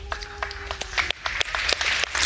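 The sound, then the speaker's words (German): Applause following the announcement of an SPD leadership vote result, a dense crackling patter of many hands clapping, with a faint steady tone in the first half that drops away midway. “Ja, in diesem Applaus steckt viel drin.”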